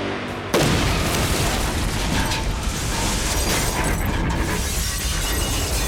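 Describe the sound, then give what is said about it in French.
A terrorist bomb explodes against a tower wall with a sudden loud blast just after the start, followed by a continuous, harsh roar of rumbling and crashing debris that stays loud to the end. “L'impact de l'explosion sur le mur de la tour fut colossal.”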